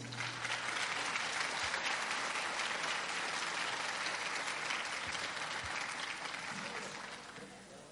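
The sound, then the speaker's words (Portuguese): Audience applause at the opening of a tenth national gathering on a Sunday morning, dense and steady clapping for about seven seconds before tapering off at the end. “Palmas para eles.”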